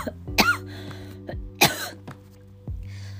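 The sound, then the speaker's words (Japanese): Sputtering coughs after choking on a drink: two sharp, loud coughs with a few fainter hacks between and after them, over a low steady background hum. “ああ興奮したのむせ出しちゃったよ”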